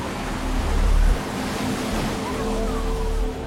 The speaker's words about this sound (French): That wave is a good 15, 20 feet tall. Easy.